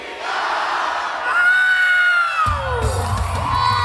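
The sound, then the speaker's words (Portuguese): Crowd cheering and singing along at an anime fan event, loud whoops and held, sung and shouted voices rising together, joined partway through by a deeper rumbling layer of many voices. “Quando as colunas disparam a música gravada, o público vai ao rubro e canta em coro. Todos sabem a letra em japonês.”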